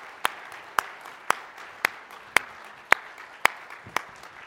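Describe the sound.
A church audience claps to welcome its campus pastors: eight sharp claps in an even, steady rhythm over a faint background hiss.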